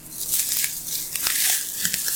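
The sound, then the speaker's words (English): A banana is cracked open and its peel stripped away, making a dense run of crisp tearing and crackling with many short snaps, with no voices. “A banana peeling. That's what it is. Here it is. Hold on. All right. That's the opening right there. You crack it open, and then here's the peeling part.”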